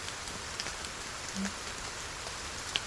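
Rain falling on mostly stony ground, a soft, steady hiss with a few faint scattered drop ticks, quiet and continuous with no voices.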